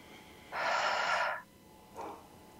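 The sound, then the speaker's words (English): Deep breathing during a guided group breathing exercise, in through the nose and out through the mouth: one long, strong breath, then after a pause a shorter, fainter breath, alone on a quiet background. “let's just take in three breaths again, in through our nose and out through our mouths”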